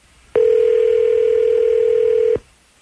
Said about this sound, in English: All right, I'm going to go ahead and dial him up.